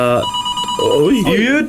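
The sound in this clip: A telephone rings in a radio studio: a loud, bright electronic ring tone with a steady buzzing tone at first, then wavering, swooping tones.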